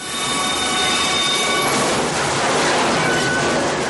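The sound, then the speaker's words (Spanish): A train approaching at full speed gives a loud, continuous roar of rail and wheel noise, with a faint metallic squeal and clatter running through it the whole time. “Un tren que se acerca a toda velocidad y un hombre, el cirujano Richard Kimball”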